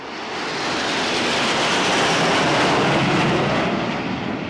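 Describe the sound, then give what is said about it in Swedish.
Fighter jets fly low over the rooftops of Paris during France's national day flypast, trailing colored smoke. Their broad, rushing roar swells up within the first second, then holds loud and steady before easing slightly at the end. “Frankrikes nationaldag den 14 juli och stridsflygplan flyger lågt över Paris hustak.”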